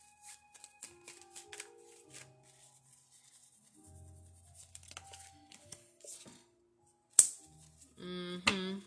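A deck of cards shuffled during a card reading: soft, intermittent riffles, rustles and small clicks, quiet overall, with a sharper snap and a denser burst of shuffling near the end.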